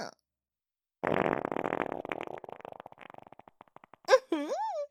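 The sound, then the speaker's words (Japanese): A long, loud sputtering fart that starts dense and rough, then breaks into slowing flutters over about two and a half seconds. A woman's voice follows briefly. “おなら出ちゃった。”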